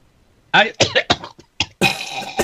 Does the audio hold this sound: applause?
no

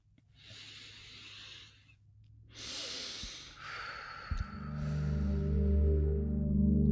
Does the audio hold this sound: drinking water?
no

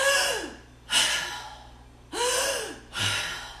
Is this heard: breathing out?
yes

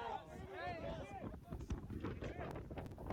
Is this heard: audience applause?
no

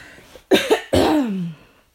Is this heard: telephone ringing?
no

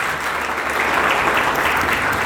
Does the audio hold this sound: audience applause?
yes

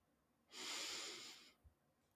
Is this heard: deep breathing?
yes

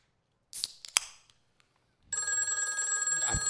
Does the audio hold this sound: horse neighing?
no

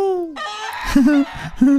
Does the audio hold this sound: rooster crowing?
yes

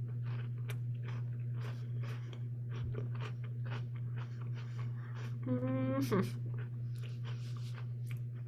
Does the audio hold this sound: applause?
no

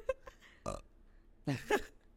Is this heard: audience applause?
no

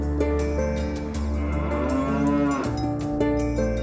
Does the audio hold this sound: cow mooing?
yes

